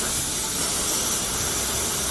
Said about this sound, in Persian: اینم پمپ باده، بزن لطفا که با سرعت نکن.